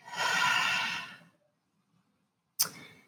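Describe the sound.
A group takes one deep breath during a gratitude exercise: a long, broad, airy rush of breath lasts about a second, then near silence, then a short, sharp burst near the end.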